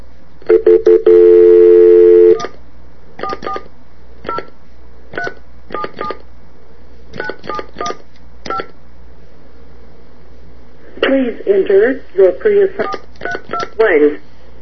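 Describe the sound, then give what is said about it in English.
Telephone keypad tones dialing into a three-way conference call. A long steady tone comes first, then many short beeps in quick, irregular groups, and a voice briefly toward the end. “But now we're going to three-way over to Dash.”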